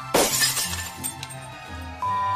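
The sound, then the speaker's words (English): Windows of a fast-food restaurant building shatter when something crashes through: one loud, sharp burst of breaking glass, then scattered tinkling fragments and a low rumbling tail. “Taco Bell restaurant, shattering the windows in the building as well”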